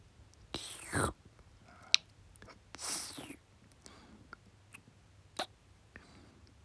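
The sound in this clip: Wet ear-licking mouth sounds in an ASMR recording, several soft slurping bursts separated by quiet pauses, with sharp brief clicks in between.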